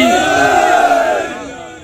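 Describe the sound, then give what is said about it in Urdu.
A crowd at a religious gathering shouts the Nara-e-Haidari chant with raised hands: one loud, sustained massed cry that holds and then fades away over the last half-second. “دونوں ہاتھ بلند کر کے نعرہ حیدری”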